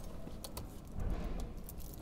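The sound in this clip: A bunch of keys jangles and clicks as a worker on a city light-rail network tries them in locks. It is a few quiet metallic rattles over a low rumble.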